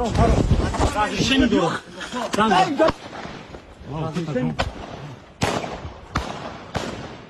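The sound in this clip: Sharp gunshots crack out during a filmed fight that began as an argument, several irregular bangs landing in the second half, with agitated voices talking loudly between and before them.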